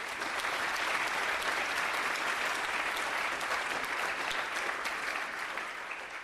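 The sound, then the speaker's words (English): Dense audience applause welcomes an author at a book talk. It is loud, even and continuous for the whole stretch and eases slightly at the very end. “Should we have a hand to welcome Pankaj?”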